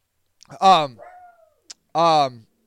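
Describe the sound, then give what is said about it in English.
A dog barks twice, two short, loud, harsh barks separated by a pause of about a second. “I do have murderous tendencies when my dog barks like that.”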